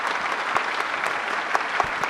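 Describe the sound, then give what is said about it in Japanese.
Audience applause for three speakers at the close of a Japanese conference session: soft, steady clapping in which many individual sharp claps stand out. “3人の方にもう一度拍手をお願いします。”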